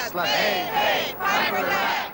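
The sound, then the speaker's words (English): Protesters chant a cheer together in a movie scene about reported animal experiments at a lab. A few loud, shouted phrases come in unison, separated by brief breaks. “And they're doing a little cheer.”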